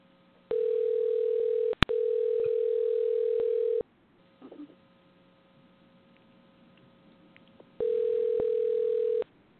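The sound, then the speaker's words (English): A telephone dial tone hums steadily while a call is dialed. It plays in three stretches: a sharp click breaks the first, a long quiet gap holds a brief soft clatter, and then the tone returns. “I'm going to try dialing Nick, and let's see if we can reach him.”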